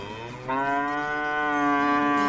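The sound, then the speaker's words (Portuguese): An ox of a Japanese cattle breed moos in one long, loud, sustained call with a rich, steady tone that grows a little stronger toward the end, with no other sounds. “Qual é o boi? Um boi japonês, uma raça japonesa que custa, em média, 1.000 pila o quilo.”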